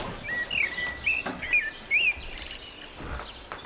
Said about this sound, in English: Look, you don't hear anything unusual? A cuckoo. On New Year's Eve.